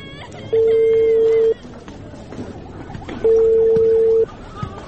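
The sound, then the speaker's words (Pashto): Ringback tone of a telephone call being placed to a father: two long, steady, mid-pitched tones of about a second each, separated by a pause, over a low background hiss. “ته صبر چې پلار ته مې زنګ ووهم او زیری پې وکم.”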